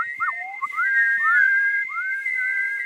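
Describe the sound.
Shrill human whistling in curving phrases that slide up and down in pitch, held almost without a break and loud, with no talk.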